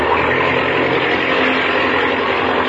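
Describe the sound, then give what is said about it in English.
An aircraft engine roars at wide-open throttle with the brake held before takeoff, a loud, steady, unbroken drone with no voices over it. “Now, open the throttle up wide. How's she hitting, Chuck? Fine. Turn it over like a throwing machine.”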